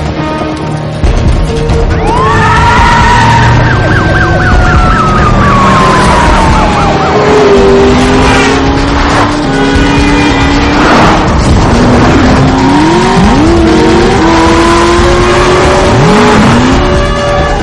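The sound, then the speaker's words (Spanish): Police sirens wail over engine noise as a car speeds past patrol cars and drives against traffic in a 2013 action thriller film chase. The sound is loud and continuous, with siren tones gliding up and down throughout. “Esquiva a varios coches patrulla, entra en una carretera y circula en sentido contrario.”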